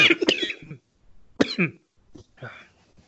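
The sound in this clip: Harsh coughing from someone whose inhaled smoke went down wrong. A few rough, throaty bursts come in separate clusters with short gaps between them, the first cluster longest and loudest.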